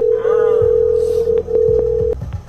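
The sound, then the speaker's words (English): A telephone sounds while a phone call is placed: one loud, steady tone holds for about two seconds with a few short beeps around it, then cuts off. “We're about to do phone calls.”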